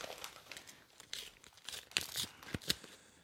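Paper tearing and crinkling as a Christmas card envelope is ripped open, with several sharp rips and rustles in quick succession, fairly faint and without talk.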